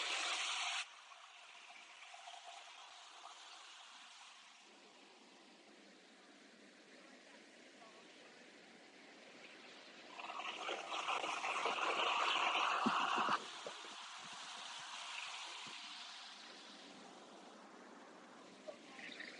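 Atlantic Ocean waves come in at night on a beach, a faint continuous wash of surf that swells louder midway before easing back to a gentle hush.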